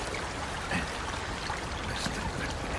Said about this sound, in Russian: набирает воду в ведро из горного ручья